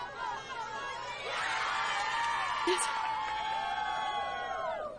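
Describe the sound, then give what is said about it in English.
Cheering and whooping from a crowd at the Gryffindor table, a dense sustained burst of excited voices that swells after the first second and holds steady to the end. “There's some cheering at the Gryffindor table.”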